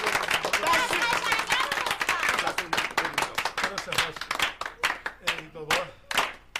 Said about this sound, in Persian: از حضار محترم خواهش میکنم جهت آورده شدن قیچی یه دست گرم صمیمانه بنوازم